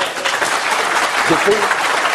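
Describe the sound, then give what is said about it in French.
Audience applause at a live public debate at a book fair: a steady, dense wash of clapping holds at an even level throughout, with a faint voice briefly audible above it. “Alors, les applaudissements, on n'est pas dans une arène, s'il vous plaît.”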